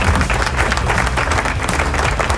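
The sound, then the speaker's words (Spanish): An applause sound effect played on a radio program, a loud, dense burst of clapping that keeps up at a steady level for the whole clip. “¡Aplausos! ¿Dónde están los aplausos?”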